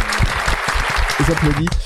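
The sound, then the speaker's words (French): Applause from an audience at the close of a game-show round, a dense patter of claps running throughout, with a voice speaking over it near the end. “Belle bravo, bravo, on les applaudit.”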